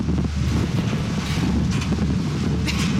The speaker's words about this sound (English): Make the wind go away.